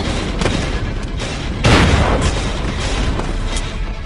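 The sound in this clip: A single loud, booming gunshot in a video game, a sudden blast standing out from a continuous noisy background.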